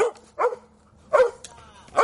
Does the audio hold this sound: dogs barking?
yes